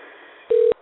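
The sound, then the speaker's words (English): A single short telephone keypad tone as a number is dialed: one steady mid-pitched beep lasting about a fifth of a second over faint background hiss. “And dialing now.”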